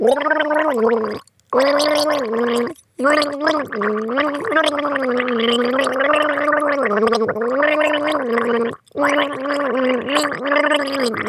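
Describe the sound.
A person gargles a song, holding water in the throat while voicing a slow tune. The bubbling, rattling tone steps between sustained pitches and breaks off in a few brief pauses.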